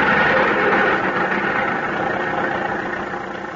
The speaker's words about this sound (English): I've heard of people breaking their arms cranking cars. Well, say, if you're afraid, move over and I'll take a whirl at it. There it goes.